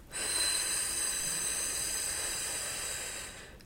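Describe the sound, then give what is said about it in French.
Breathy, hissing stream of air blown out through the mouth, as if to snuff out or flicker a candle flame, as a voice exercise. It is held as one steady, fairly soft exhale for over three seconds, with no voice. “en proposant de souffler par la bouche et en imaginant que l'on veut éteindre ou faire vaciller la flamme d'une bougie. Donc, on va faire des sons comme ceci.”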